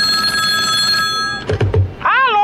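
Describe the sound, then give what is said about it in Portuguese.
Telephone ringing while a call is placed: a steady, repeating ring tone, then a few dull thunks, then a loud warbling ring that wavers up and down. “Deixa eu ligar aqui, rapaz.”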